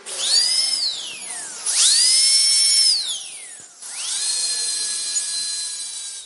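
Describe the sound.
A dentist's drill whines alone in three long runs. Each run spins up quickly to a high, steady shrill pitch. The first two wind down with a falling whine, and the last one keeps going.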